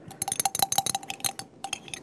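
Many quick, irregular clinks of a utensil against a container as a thickener is stirred into a liquid soap mixture. The taps are light and fairly faint, with no talking.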